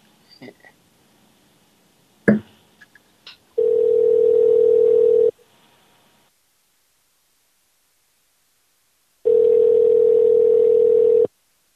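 Ringback tone of an outgoing telephone call: two long, steady, mid-pitched tone bursts separated by several seconds of silence, preceded by a few sharp clicks.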